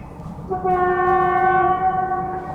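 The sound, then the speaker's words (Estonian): A passing train sounds a loud, steady horn chord that rises out of a low rumble of rolling wheels and holds to the end. “üks rong läheb mööda.”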